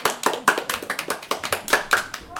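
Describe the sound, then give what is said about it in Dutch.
Applause from a small group: many distinct, sharp hand claps in a loose, fairly even rhythm, each clap clearly separated, with no voices over them. “Even applaus allemaal.”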